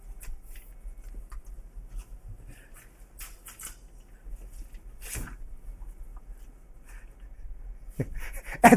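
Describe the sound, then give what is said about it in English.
An envelope being ripped open during a probability demonstration with swapped envelopes: a few brief, crisp paper-tearing and rustling bursts over a largely quiet background. “Okay, rip it open and see.”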